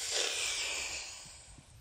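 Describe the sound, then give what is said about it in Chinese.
Deep breathing as part of a calming exercise for a young boy: a steady, breathy rush of air that holds fairly even, then slowly fades toward the end. “好，弟弟，我们一起深呼吸，闭气两秒，然后吐气，再深呼吸”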